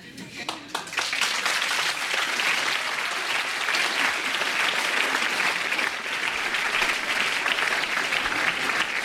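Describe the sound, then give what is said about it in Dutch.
An audience applauds after a poetry performance. The clapping builds quickly and then holds as a dense, steady wash of many hands for several seconds. “Applaus op alle banken voor Allen Ginsberg, Peter Orlovsky, Steven Taylor en hun America.”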